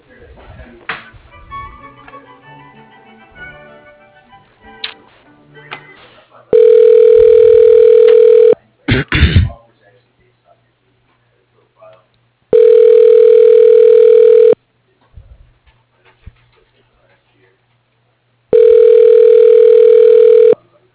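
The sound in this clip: Telephone line tone heard while a call is transferred to voicemail: after some faint talk and scattered clicks, three loud, steady tone bursts of about two seconds each, separated by quiet gaps of roughly four seconds.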